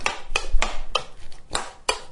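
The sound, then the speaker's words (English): A spoon stirring chopped cucumber into yogurt in a bowl gives several sharp clinks against the bowl at uneven intervals, with softer wet scraping and mixing between the knocks. “Yogurt is in a more suitable bowl, and I'm just stirring in the cucumber.”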